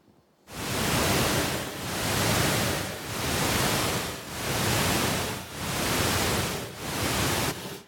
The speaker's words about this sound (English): So that sound is actually at the same burst frequency as your brain waves